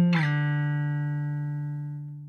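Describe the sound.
A guitar note slides down from the eighth fret to the fifth: a plucked tone that quickly drops in pitch, then rings on steadily and slowly fades, heard alone.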